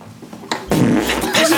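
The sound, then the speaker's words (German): A whoopee cushion lets out a loud, blatting fart noise as a teacher sits down on his seat in a classroom. A brief rustle comes first, then the raspy, buzzing blurt sustains for about a second. “springt erschrocken auf und zieht dann mit hochrotem Kopf das Pupskissen hervor”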